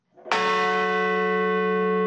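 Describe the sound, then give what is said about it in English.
A single bell strike at a memorial ceremony in Shanksville, Pennsylvania, at a field where a commercial jet crashed. It is a loud, bright strike with a rich, long-sustaining ring that hums on without fading much. “In Shanksville, Pennsylvania, bells were rung and a wreath was laid where a commercial jet crashed into a field”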